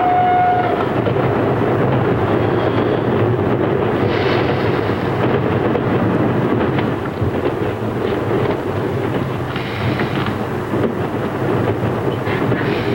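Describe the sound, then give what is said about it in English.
A train slows to a stop while hauling a boxcar of prisoners: a low, dense rumble of rolling wagons runs steadily throughout, dipping slightly in loudness toward the end. “The train pulls to a stop.”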